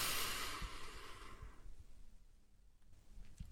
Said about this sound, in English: Here we go. Deep breath in.